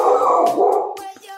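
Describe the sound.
A dog lets out a loud, drawn-out howling bark that wavers and then trails off into shorter, broken yelps.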